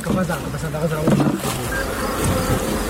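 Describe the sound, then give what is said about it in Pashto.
Honey bees buzz at a bee farm in Dand district, Kandahar, a steady, dense hum that carries on throughout, with a voice partly over it. “دا په کندهار کې د دن ولسوالۍ هغه سیمه ده چې د کندهار د نورو سیمو په پرتله ډیر د شاتو د مچیو د روزنې فارمونه لري.”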